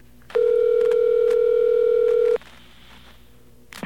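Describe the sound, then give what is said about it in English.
A single ringing tone sounds on a telephone line during an outgoing long-distance call. The steady, level tone lasts about two seconds, then cuts off and leaves a quiet line hiss. “I hope this worked. Okay, we got a ring.”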